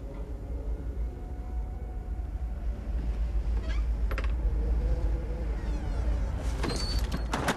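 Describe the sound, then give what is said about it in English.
A door slowly pulled open by its handle, giving a few faint scrapes and a brief squeak over a steady low rumbling background. “carefully reaches for the door handle and, after a final nod to the men, pulls the door slowly open”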